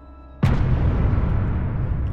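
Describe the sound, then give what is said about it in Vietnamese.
A sudden loud blast as a paper talisman explodes in a story sound effect: a sharp onset followed by a heavy, sustained rumble that continues to the end. “vòng ra sau lưng lão, phát nổ đùng một cái”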